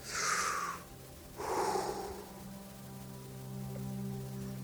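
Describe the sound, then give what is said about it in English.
Two long, airy exhalations are breathed out to demonstrate breath as spirit. Each is a loud breathy hiss lasting under a second, separated by a short pause, then a soft, steady low drone continues alone. “The word spirit in the Bible is breath.”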